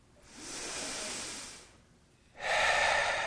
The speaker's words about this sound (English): Okay, breathe in. Ready?